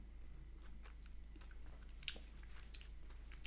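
Biting and chewing a passion fruit candy, yellow with small black dots: many crisp little crunches and clicks over soft, wet chewing, fairly quiet and steady throughout.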